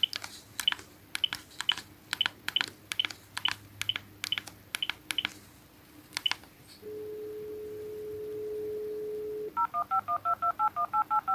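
A telephone number is keyed in as a rapid series of short, sharp key beeps. A steady tone follows, then a quick run of pulsed higher beeps.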